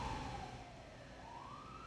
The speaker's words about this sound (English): hold for siren.